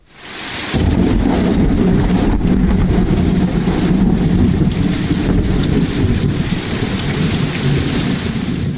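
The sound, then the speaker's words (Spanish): Thunder and a heavy rainstorm break over a school playground during recess, with a loud, dense roar of rain that starts abruptly and stays steady throughout, and deep thunder rumbling underneath. “un terrible trueno sacudió el patio de la escuela y una tormenta se desataba sobre los niños que estaban en el recreo.”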